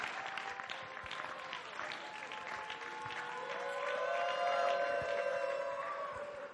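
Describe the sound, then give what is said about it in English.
Audience applause breaks out as a woman comes on stage to share her testimony at a church gathering, a steady wash of clapping that holds throughout and swells slightly toward the end. “Please put your hands together as she comes on stage.”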